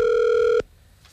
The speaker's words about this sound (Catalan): Ara estem trucant a la farmàcia?